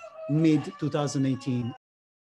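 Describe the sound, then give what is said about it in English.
A rooster crows in the background with a single loud, harmonic call of about a second and a half, broken into a few segments, then silence. “sorry for the rooster in the background”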